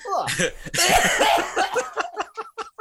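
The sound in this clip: Harsh, throaty coughing in a couple of broad bursts, then a run of short, choppy vocal breaths that trail off, from someone clearing something caught in their throat.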